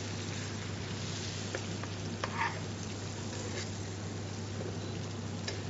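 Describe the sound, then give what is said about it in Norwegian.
A fillet browns in butter in a hot pan with a faint, steady sizzle, broken by a few small crackles over a low hum. “Nei, nå skal jeg egentlig bare brune, så baker vi, ferdig, baker vi fileten ferdig i ovnen. Men eh, det her smøret her blir jo fantastisk.”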